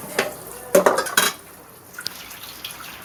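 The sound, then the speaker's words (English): A pot is washed out with water: a few clanks and knocks of metal with splashy scraping, then a quieter stretch with faint drips and light clinks. “Hold on, I'm washing out this pot.”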